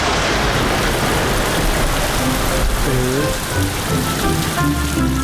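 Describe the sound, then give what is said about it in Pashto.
Steady rain falls in a dense, even hiss of drops that holds at a constant level for the whole clip, with no voices. “دی وخت کې باران پیل شو او دوی لند کړل.”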